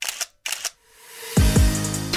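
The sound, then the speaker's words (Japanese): A camera shutter fires a few sharp, crisp clicks in quick succession, separated by brief silences, with a low, sustained tone under the later clicks. “中島さんの思いも乗せて僕もいい写真を撮ります”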